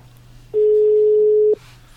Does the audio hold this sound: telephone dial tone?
yes

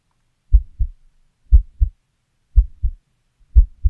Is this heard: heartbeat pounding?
yes

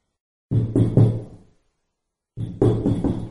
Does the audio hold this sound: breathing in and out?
no

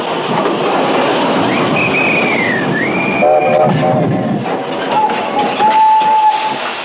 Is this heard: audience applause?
no

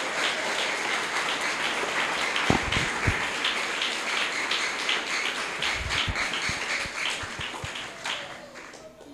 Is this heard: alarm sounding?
no

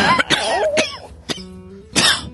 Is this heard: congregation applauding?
no

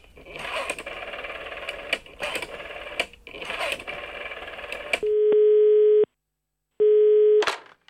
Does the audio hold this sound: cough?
no

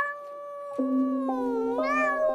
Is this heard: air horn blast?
no

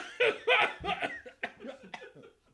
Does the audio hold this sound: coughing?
yes

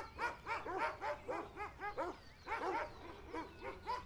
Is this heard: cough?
no

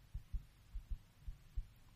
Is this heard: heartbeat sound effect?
yes

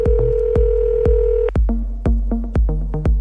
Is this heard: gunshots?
no

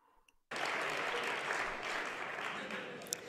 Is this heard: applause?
yes

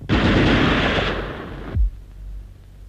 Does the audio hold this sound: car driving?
no

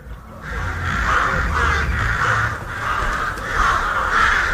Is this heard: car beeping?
no

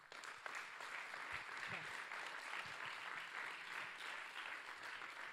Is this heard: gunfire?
no

